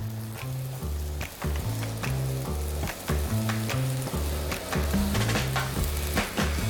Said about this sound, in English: and then we're going to add some vegetables, some bell peppers, green, red bell peppers, some squash, and some other little vegetables to go on top, and onion.